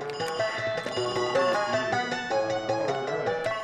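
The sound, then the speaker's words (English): A 1980s arcade video game being played: rapid electronic bleeps and tonal blips with short pitch swoops, continuous and fairly loud. “And what is that, exactly? That's the sound of me playing a 1980s arcade game.”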